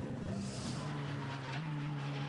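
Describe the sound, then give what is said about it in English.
A Dacia Logan engine drones steadily while driving on a race circuit near the Brünnchen section. The low, continuous hum steps up slightly in pitch midway, faint and blended with road and wind noise. “the Dacia Logan is out on circuit at the moment. Yeah, just coming down towards Brünnchen.”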